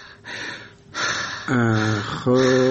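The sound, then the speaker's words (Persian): A patient breathes deeply during a doctor's examination, taking a few slow, airy breaths, the later ones carrying a voiced, groaning tone. “تو پیران تپلن کو، نفسای عمیق عمیق بکش. خب برو نفس و یک کم دگام عمیق‌تر.”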